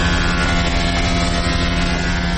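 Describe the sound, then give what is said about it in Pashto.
A woodworking machine cuts timber for doors in a carpentry factory, giving a loud, steady droning hum with a constant whine that holds unchanged for the whole moment. “دا هم د نجارۍ یوه فابریکه ده چې په کې په ماشین لرګي رکیږي او د دروازو جوړولو لپاره برابروي.”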